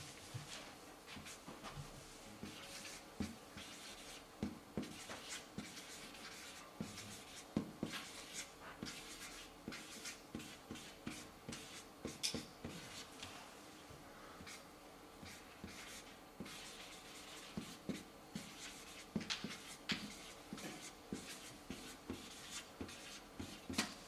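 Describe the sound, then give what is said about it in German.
Handwriting strokes as something is written out in a different colour, a steady run of many short, scratchy rubs and taps in an irregular rhythm, fairly faint, with no voices. “Ich schreibe das mal so hin, schreibe das mal in einer anderen Farbe.”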